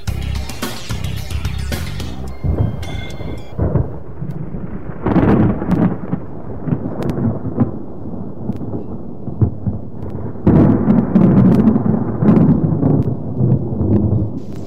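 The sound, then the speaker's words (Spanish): A thunderstorm with rain gives deep, continuous rolling thunder over a steady wash of rainfall. The rumbling swells and fades in heavy waves and grows noticeably louder in the final few seconds. “Y eso me recuerda que pronto va a llover.”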